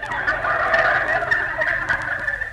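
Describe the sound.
A turkey gobbles in a continuous, warbling rattle lasting a couple of seconds, loud and steady, with no other sound.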